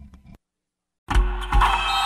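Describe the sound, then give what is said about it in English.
Motorized blackout window shades run with a steady mechanical whir and hum. It starts abruptly after a short faint rustle and a pause, then carries on to the end with a slight surge partway through. “Oh, no, I meant those blackout motorized shades. MVP of the room.”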